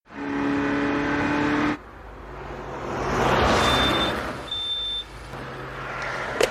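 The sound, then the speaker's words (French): A red Ferrari Testarossa speeds along a motorway, its engine droning loudly before giving way to a broad rushing swell, with two short high beeps sounding over the noise. “Interception de contrôle. Ferrari rouge, Testarossa, 307 km heure.”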